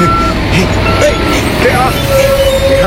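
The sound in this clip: Engine of a kitchen waste transport truck starting up, a low steady rumble with a thin electronic beeping tone above it, while voices talk over it.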